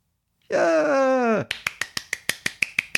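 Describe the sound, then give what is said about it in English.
Hands clap in a quick, steady rhythm, a run of sharp, evenly spaced claps. A long, drawn-out voiced groan comes just before the clapping. “yeah, I'm literally clapping.”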